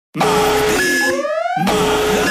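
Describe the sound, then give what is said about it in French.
Electronic alarm beeping loudly, a steady tone that breaks midway into rising, sweeping tones before returning to the steady tone. “Cette alarme, c'est pour que je me souvienne que c'est le mardi malin chez Pizza Hut.”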